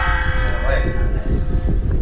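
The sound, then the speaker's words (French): Ringing of a 400-year-old retired bell, a timbre meant to be struck rather than swung, hit gently. Its sustained tone with several overtones sounds fairly soft over steady low background noise. “Oui, elle sonne. Oui, si on tape dessus, oui. Regardez, gentiment, parce qu'elle est à la retraite quand même.”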